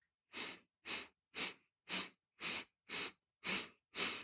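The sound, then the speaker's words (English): Eight short inhalations through the nose during a stress-reducing breathing exercise, evenly spaced in a steady rhythm, each a soft breathy sniff with quiet pauses between. “Now begin to breathe in for those eight strokes through your nose.”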